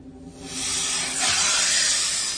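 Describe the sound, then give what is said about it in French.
Hissing of a small black snake, a steady breathy hiss that swells after the first half second and holds loud and unbroken to the end, with nothing else heard. “Le petit serpent noir.”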